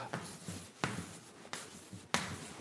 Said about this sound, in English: Let me write Sadoleto on the board.